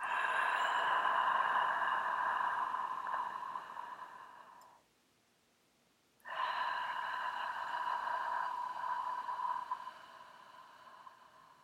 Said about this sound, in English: We breathe in, and as we breathe in, we make a soft ah sound. When we breathe out, we make a soft ha sound. So it sounds something like this.